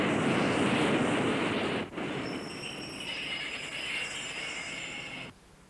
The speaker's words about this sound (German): da kommt die U-Bahn. Die U-Bahn kommt.